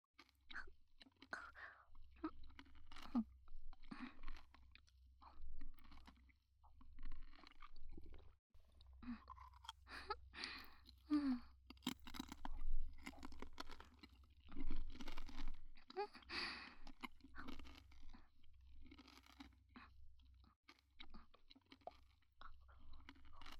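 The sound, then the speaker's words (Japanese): Someone chews a crispy, sweet pastry with a juicy pineapple filling, making many faint, crunchy bites and wet mouth sounds in a steady, irregular rhythm, with no talking. “外はパリパリで甘い、中のパインもみずみずしくて美味しいね。”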